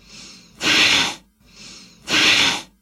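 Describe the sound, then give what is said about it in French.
Two sharp, forceful exhales blast through the nose during a yoga breathing exercise for fighting the cold. Each hissing burst follows a softer breath in, and the breaths repeat in a steady rhythm. “L'exercice va consister à inspirer, puis souffler brusquement par le nez, comme si vous chassiez une poussière de vos narines, ce qui donne quelque chose comme...”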